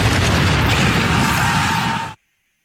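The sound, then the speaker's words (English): A mortar shell bursts overhead after being fired from a harbor fort at the opening of the Civil War: a loud, sustained roaring blast of about two seconds that cuts off abruptly into silence. “At 4:30 a.m. the next morning, the first mortar shell arced high from Fort Johnson and burst above Sumter like a signal flare from hell.”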